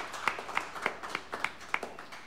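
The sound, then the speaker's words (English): Rhythmic audience clapping at a country music show, quiet, crisp claps landing in an even beat of roughly three per second, with no talk. “Nice clap for that. That's pretty good.”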